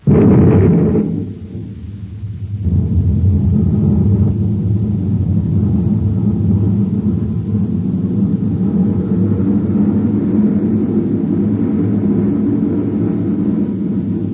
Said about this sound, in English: Stand by to fire rockets. Half G acceleration. Standing by, sir. 1/2 G. Fire rockets.